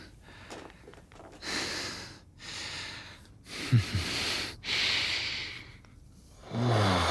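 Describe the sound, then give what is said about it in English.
Soft, airy breaths blown against skin in an intimate setting: several slow, hissing exhalations in a steady rhythm, moderately loud, with no talking. “My breath against your skin.”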